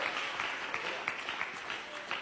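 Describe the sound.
Soft, faint applause from a church audience during worship, with a thin, continuous patter of clapping and a few slightly stronger swells.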